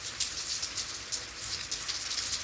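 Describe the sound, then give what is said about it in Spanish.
Steady, persistent rain falls at night, an even hiss of dense drops with many small patters and no voices. “Siguen bebiendo y hablando mientras fuera cae una lluvia pertinaz en la noche.”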